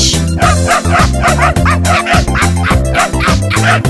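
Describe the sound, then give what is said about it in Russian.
A small dog barks over a steady, dense musical backing, its yaps repeating throughout in a loud, regular rhythm. “Громко гавкает твоя жучка и кусается, словно клещ.”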